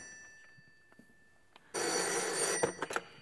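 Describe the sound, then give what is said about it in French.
A telephone bell rings loud and sharp in an old-style office scene. It starts abruptly after a quiet stretch with a few faint knocks, then jangles on continuously to the end. “Allô? Ouais, central. Un message du Caire?”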